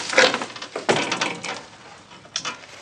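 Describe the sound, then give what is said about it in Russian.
A door is shut in a radio drama: a few sharp wooden knocks and bangs over a low rustle, with the loudest thud near the middle. No one speaks. “Леднев закрывает дверь перед носом Петрыкина.”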